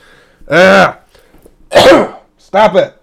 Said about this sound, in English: Stop it, throat. The people do not want to hear you continuously clearing your voice.